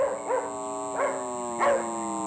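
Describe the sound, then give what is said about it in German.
A small black poodle barks in a children's audio drama, giving a few short, high yapping barks in quick bursts over a steady electronic whine and hum. “Und der kleine schwarze Pudel schoss geradewegs in Lillebros Zimmer hinein.”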